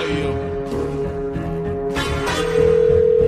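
Ringing tone of an outgoing telephone call: a steady, loud tone enters near the end, over a busy background.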